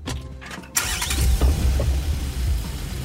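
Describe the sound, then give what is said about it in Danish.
The engine of a 12-metre campaign bus starts abruptly after a moment of quieter background noise, then settles into a steady, loud, low rumble. “Sig goddag til SVM-bussen.”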